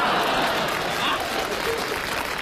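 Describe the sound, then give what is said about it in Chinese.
Audience applause fills a stage comedy performance: dense, steady clapping from a large crowd that holds at an even loudness from start to finish, with no clear breaks. “大家为什么鼓掌啊？ 为什么？”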